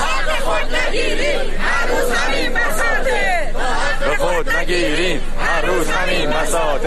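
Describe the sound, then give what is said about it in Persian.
Social security retirees chant slogans together at a protest in Yazd, a dense mass of raised voices shouting in unison, loud and continuous throughout with rhythmic, overlapping cries. “بازنشستگان تأمین اجتماعی در یزد هم شعار دادند. شعارهای دیگری که هم در اصفهان داده شد.”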